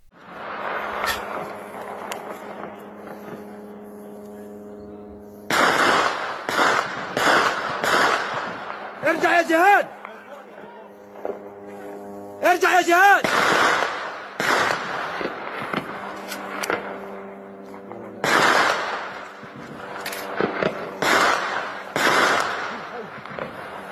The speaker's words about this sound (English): Salama recorded footage of Israeli gunfire on Jabalia camp on Sunday.